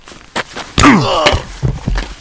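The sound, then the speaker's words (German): A hard blow lands on the back of a man's head in a German radio drama: a short thump, then a heavier impact with a pained, falling groan, followed by a few softer thuds. “Was hast du getan? Musstest du so fest zuschlagen? Er blutet am Hinterkopf.”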